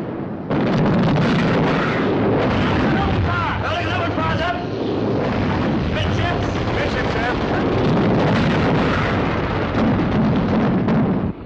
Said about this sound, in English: The Amethyst unleashes a salvo of return fire.